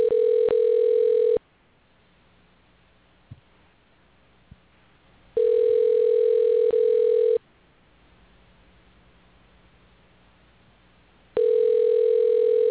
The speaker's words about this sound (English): I'm just dialing anyway to see what happens. Get his answering machine again.